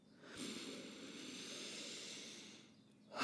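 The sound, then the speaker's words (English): One slow, deep breath taken to calm down: a soft, airy hiss that rises gently, holds steady for a few seconds and then eases off, faint and alone. “I'm going to take a little breath and calm myself down a little bit.”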